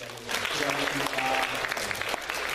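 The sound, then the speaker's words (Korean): Applause from a church audience: dense, steady clapping that swells in after a quarter second and holds loud and even for about two seconds. “경례의 박수.”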